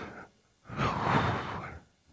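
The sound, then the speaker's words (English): A deep breath drawn in by people breathing together: one long, breathy inhalation swells up and fades over about a second, preceded by a faint short breath, quiet and with no talk. “Take a deep breath. Ready? 1, 2, 3.”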